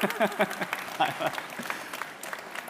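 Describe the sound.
Audience applause at an evening meeting: a faint patter of clapping with a voice speaking over it at the start, then thinning into scattered claps.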